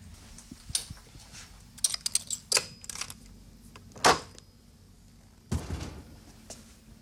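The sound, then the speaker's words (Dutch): An old-fashioned Lips safe is unlocked with a key and its door swung open: faint metallic clicks and light rattles, then two heavier thuds as the door moves. “de deur wordt geopend. Het is een echte ouderwetse lipskluis.”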